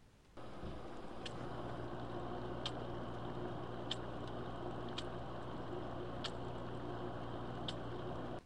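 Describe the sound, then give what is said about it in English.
A do-it-yourself CO2 generator bubbles into an aquarium, a faint steady watery hiss broken by soft, evenly spaced bubble pops, about six of them. “That is the sound of a do-it-yourself CO2 generator.”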